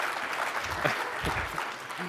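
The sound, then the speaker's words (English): Audience applause during a technical presentation, a dense, steady patter of many hands clapping that holds at an even level throughout, with faint talk underneath. “If you applaud like you can see it, the guys next door think we're doing really good.”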